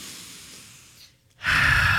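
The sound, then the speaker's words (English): A group takes a deep breath together: a long, soft inhale fades into a brief hush, then a loud, rushing exhale. “Why don't we all just take a collective breath together? Let's go.”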